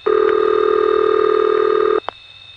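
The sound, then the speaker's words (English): A steady electronic tone on an N3 carrier telephone trunk holds evenly for about two seconds, then cuts off abruptly, followed by one brief click. “What a nice sound that is. N3 carrier. You listen to it all day.”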